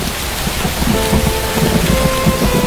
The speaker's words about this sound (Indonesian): Hujan lebat menghalangi pandangan, hanya berjarak beberapa meter saja.